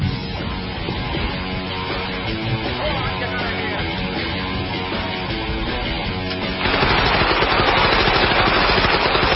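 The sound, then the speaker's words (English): Gunfire from a Sean Connery film scene: a dense, continuous barrage that grows louder and brighter for the last third. “Sean Connery committing gun violence on screen. Brings a knife to a gunfight.”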